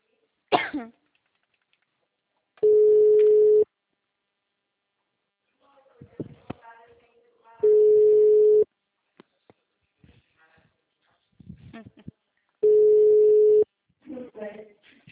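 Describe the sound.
Ringback tone of an outgoing telephone call: three steady, mid-pitched one-second tones spaced about five seconds apart, with brief faint noises and voice sounds in the gaps between them.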